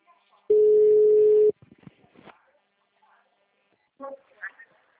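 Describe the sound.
A telephone ringing tone plays on an outgoing call: one steady, low beep about a second long, followed by a few faint clicks and brief voice sounds.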